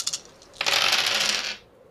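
Dice rolled during a tabletop role-playing game: a brief burst of bright clattering and rattling that lasts about a second, followed by quiet.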